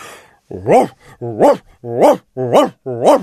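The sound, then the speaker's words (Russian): A huge black dog barks in a deep voice: five loud, booming woofs in a steady rhythm, each rising and then falling in pitch, with brief gaps between them. “Ревел басом милорд, огромный черный пес, стуча хвостом по стенам и по мебели.”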